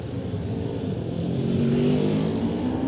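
A racing motorcycle pulls away from the start at a road race, its engine a loud, continuous drone whose pitch climbs slightly as it accelerates.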